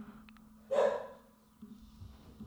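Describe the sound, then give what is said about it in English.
A single dog bark in the background, short and muffled, rising briefly out of a faint low hum before fading. “pardon the dog barking in the background.”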